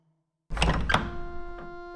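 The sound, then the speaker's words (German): An apartment door is unlocked and opened: a heavy thunk, then a second sharp clack, followed by a lingering metallic ring and a faint later click. “Willst du aufschließen? Nein, nein, mach du auf, du bist der Hausherr.”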